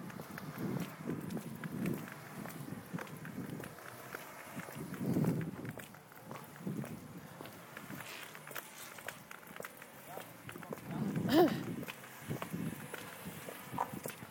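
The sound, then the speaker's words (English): Footsteps walking along the back entrances of shops in gusty wind, with steady soft treads under low, rumbling wind buffets that rise and fall throughout. “I'm just going to walk along a bit. I won't talk for a minute. Sorry about the wind, guys.”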